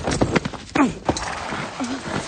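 A horse's hooves clip-clop in a few quick, uneven strikes, with a couple of brief voiced sounds between them.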